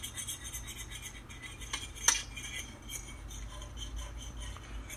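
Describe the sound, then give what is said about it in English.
Scrubbing of a dirty pot: steady, faint scraping and rubbing that runs throughout, with one brief metallic clink near the middle. “And this is me trying to clean this pot. It's a mess.”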